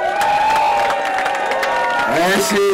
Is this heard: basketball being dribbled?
no